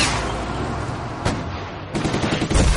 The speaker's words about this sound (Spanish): Dispara con una ametralladora.